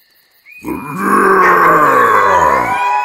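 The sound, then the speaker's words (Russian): A beast's roar imitated by a human voice: a loud, rough, sustained growl that swells in after a brief silence and gradually lowers in pitch. “От моего рева хищники невольно вздрогнули”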